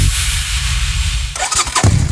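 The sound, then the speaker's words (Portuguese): Motorcycle engine noise at a motorcycle club rally: a loud, steady roaring rumble that breaks off abruptly, then gives way to a rougher, uneven engine sound with bursts of revving. “O rugido dos motores está de volta a Braga.”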